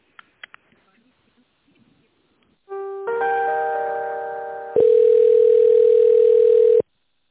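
Telephone tones sound while a call is being connected. A few faint clicks come first, then a sustained harmonic electronic tone. It gives way to a louder, steady single-pitch tone that stops abruptly.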